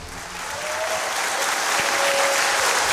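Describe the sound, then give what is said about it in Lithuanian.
An audience applauds to welcome the host Andrius Tapinas at a live comedy show in Jonava. The clapping swells quickly at the start, then stays dense, loud and steady. “Plojimais pasitikite, laikykitės ten vedėją Andrių Tapiną.”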